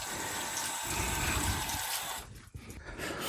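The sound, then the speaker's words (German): Running tap water pours as hands are rinsed of grated potato and carrot juice in a kitchen, a steady rushing stream that cuts off abruptly near the end, leaving quieter splashes. “Gehe ich mir einmal gerade die Pfoten waschen, weil da jetzt Kartoffel- und Möhrchensaft dranhängt.”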